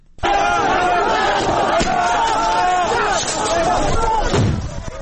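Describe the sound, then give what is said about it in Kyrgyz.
Migrants shouting at the Macedonian border crossing as they try to force the gate from the Greek side amid police tear gas and stun grenades; many raised voices overlap in a loud, unbroken roar throughout. “Чек араны аш деп кыйкырган мигранттар Македон полицейлерине да таашыргычты.”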